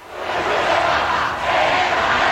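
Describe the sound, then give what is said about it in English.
A large crowd roars in the city-centre streets of Madrid as it welcomes Pope Leo XIV. The broad, loud cheering swells, dips briefly midway, then surges back up. “Thousands lining the streets to Spain to welcome Pope Leo XIV. Local authorities in Madrid say more than 500,000 gathered for this event in the city center.”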